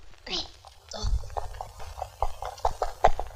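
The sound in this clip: Livestock hooves clip-clop as the animals are driven along, a run of sharp, fairly regular knocks under voices.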